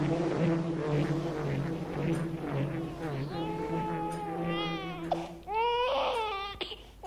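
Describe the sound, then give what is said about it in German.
A child cries loudly in wavering, high sobbing wails, with rising and falling pitch and brief breaths between bursts, over a faint constant low hum; no words are spoken. “Warum schreit dieses Kind noch immer?”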